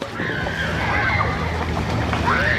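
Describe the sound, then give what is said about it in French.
Children splash and paddle in a municipal swimming pool, leaning on inflatable floats, making a continuous, fairly loud wash of sloshing water. “Et les enfants peuvent barboter tranquilles, appuyés sur des licornes gonflables ou des bouées en forme de part de pizza géante.”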